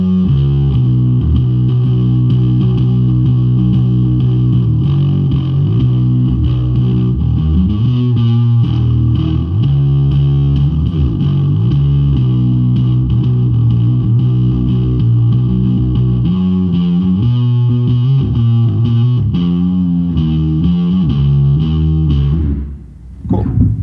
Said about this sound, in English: it's called the Apocalypse, but that's been worn down by the apocalypse itself that we're living. It just rattles the paint right off the pedal. Rattles the paint. Let's hear that sucker.